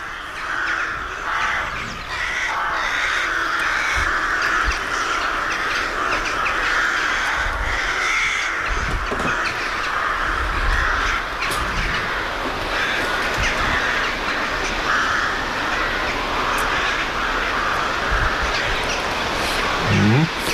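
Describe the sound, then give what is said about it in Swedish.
A large, highly social colony of rooks caws continuously, with many harsh, overlapping calls forming a dense, steady chorus for the whole stretch. “Ja, en stor koloni med råkor som har mycket ljud för sig. Det är otroligt sociala och pratar mycket.”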